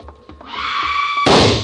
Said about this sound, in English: Sam, that was a shot that sounded like Lotta.